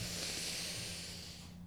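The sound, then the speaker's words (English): A slow, deep breath drawn in and let out during a closing relaxation exercise, one hand on the heart and one on the belly: a soft, steady, airy hiss that holds level and fades away at the end. “One hand on the heart, one hand on the belly. We'll breathe it all in”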